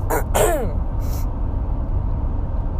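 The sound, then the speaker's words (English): Throat clearing and sniffing from a person with the lingering end of a cold: a couple of short throaty rasps near the start, then one brief breathy sniff, followed by low steady background hum. “I'm so sorry about the clearing my throat and sniffing, guys.”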